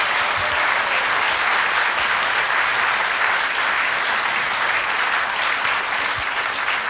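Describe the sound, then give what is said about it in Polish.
Sustained audience applause at a staged contest event, a dense, even wash of many hands clapping at a strong, steady level throughout without a break. “To też jej wspomnienie i dla niej oklaski teraz, proszę Państwa.”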